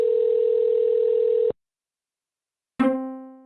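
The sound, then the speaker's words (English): A hotel room telephone ringing: a steady, buzzy electronic tone holds for about a second and a half and cuts off. After a short silence comes a single bright, plucked-sounding chime that slowly fades, with no voices. “We could take an opportunity of the phone just ringing for me to figure out what these sounds are.”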